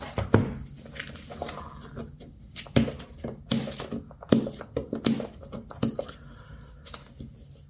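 Thick plastic packaging wrapped around a device crinkles and rustles as it is opened, giving quiet, irregular crackles and sharper snaps spread unevenly throughout.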